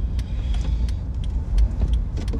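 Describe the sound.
A car being driven: a steady, loud, low road rumble throughout, with light clicks and rattles scattered above it and no talk.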